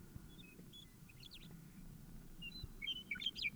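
A bird gives short, high chirps and tweets, quiet and scattered at first, then busier and louder toward the end over a low background rumble.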